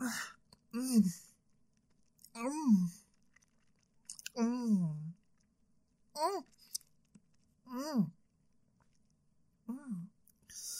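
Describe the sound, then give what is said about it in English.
Ice cream being eaten on a summer day, with wet mouth smacks and slurps in several bursts, each paired with gliding, hum-like voiced murmurs, separated by short quiet gaps. “ice cream just feels so good on a summer day, doesn't it? And I just have to eat it all down.”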